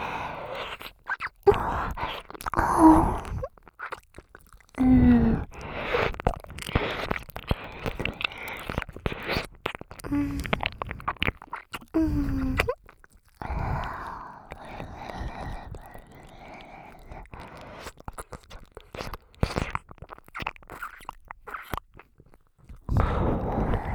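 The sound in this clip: A voice makes ASMR mouth sounds that imitate chewing and eating an ear: soft wet smacks, nibbling clicks and crunchy bites in irregular bursts with short quiet gaps, continuing over a long stretch.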